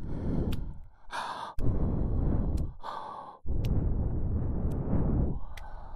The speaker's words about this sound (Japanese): 熱かく吐息をプレゼント。このままお耳の奥まで。